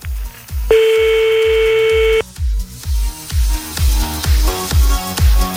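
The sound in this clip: A telephone line tone holds steady for about a second and a half as a number is dialed for a call, heard over a thumping, evenly paced music beat that continues throughout.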